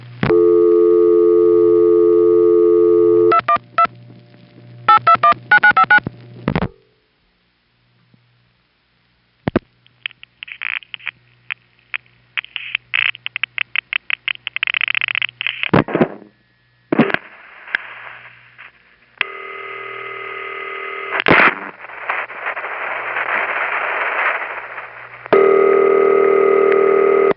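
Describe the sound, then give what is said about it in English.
Telephone call through a panel switching system exchange: a steady buzzing tone, bursts of rapid mechanical clicking, a silent gap, long runs of clicks and pulses, then loud sustained tones broken by brief pauses. “This is by no means a comprehensive tape on the panel switching system. This is just one sound of it that you hear calling into it from the outside. It's one way to call into it. Let me take a typical call first.”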